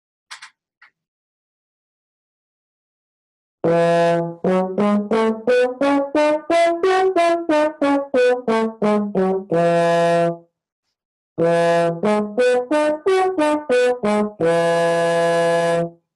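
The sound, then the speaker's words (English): An F Mixolydian scale played on a single melodic instrument climbs to the ninth and comes back down in clear, evenly spaced notes ending on a held tone, followed by a matching arpeggio up and down that also ends on a sustained note. “if I were to practice an F Mixolydian scale to the 9 and back down, it would sound like this.”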